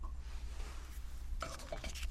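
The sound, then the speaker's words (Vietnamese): A teapot lid is closed after boiling water has been poured in to brew tea. After a quiet stretch comes a light clink, followed by faint rattling. “nước nóng vào thì hương tỏa thêm ra và chúng ta chậm rãi đậy nó ấm lại”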